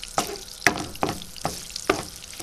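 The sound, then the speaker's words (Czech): Bacon fat melting and sizzling in a frying pan, a steady soft hiss broken by a few sharp crackling pops spaced unevenly apart. “Připravíme si pánev a rozpustíme špek trošku sádla.”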